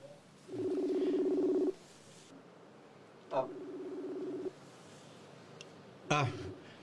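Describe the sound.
Telephone tones sound as a number is dialed to place a call: three long, low, buzzing tones, each lasting over a second with gaps between them, along with a couple of sharp clicks over a faint background hiss.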